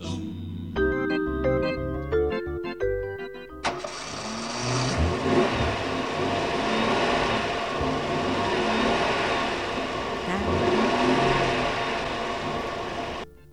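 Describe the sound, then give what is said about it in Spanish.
A car engine starts abruptly after a short musical jingle, then runs with a loud, steady roar that holds for about ten seconds before cutting off. “Bueno, arrancó el auto.”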